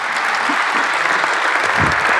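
An audience applauds to welcome a guest, a dense, steady patter of many clapping hands holding an even, fairly loud level for the whole stretch.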